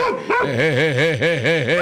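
A small dog barks in a rapid run of many high, sharp yips, one after another in a quick steady rhythm, loud and continuous throughout.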